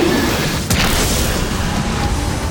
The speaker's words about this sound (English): Bright light exploded from the palm of the sorcerer's outstretched hand. Sedna realized too late that the blast was directed straight at him.